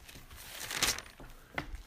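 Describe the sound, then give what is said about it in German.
Bible pages being turned to look up a passage give soft papery rustles, a couple of brief swishes rising out of a faint background. “Hier sollen wir noch eine Bibelstelle aufschlagen. Hebräer 5.”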